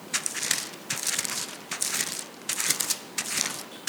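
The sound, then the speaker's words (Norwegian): Pages of a Bible are turned with several quick papery rustles and crinkles, each lasting under a second, coming in an uneven series of soft bursts. “1. Peter kapittel 1. Skal vi slå opp den sammen.”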